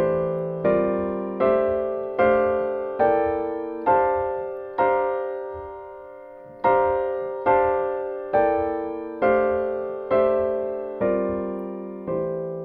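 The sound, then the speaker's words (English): A C dominant scale harmonized note by note and played on an instrument as a series of ringing, decaying chords, one per even beat, with a short pause midway before the run continues, heard alone. “We have now harmonized each note of the C dominant scale. So it sounds like this.”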